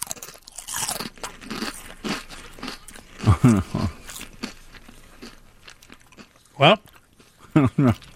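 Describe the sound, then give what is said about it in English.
Crunching and chewing of ketchup-flavored Lay's potato chips, with several sharp, loud crunch bursts in the second half, the chewing separated by quieter gaps; people talk before the crunching starts. “this is ketchup flavored chips from Lay's. Apparently, a very popular flavor of chip in Canada, as we found out. So let's all try ketchup flavored Lay's.”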